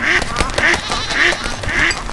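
Ducks quacking in a video game, with four short, nasal quacks repeating at a regular, even spacing, each a bright, buzzy burst.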